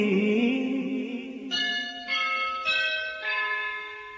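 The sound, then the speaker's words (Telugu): A school bell rings for the first period of the day: five metallic strikes, each leaving a bright, shimmering ring that overlaps the next and slowly fades, with no voices. “ఎల్బోవి స్కూల్లో మొదటి గంటే మోగింది.”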